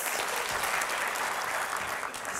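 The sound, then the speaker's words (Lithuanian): Audience applause welcoming a guest onto an evening show: dense, steady clapping that holds at an even level throughout, with no voices standing out. “Pasitikime plojimais.”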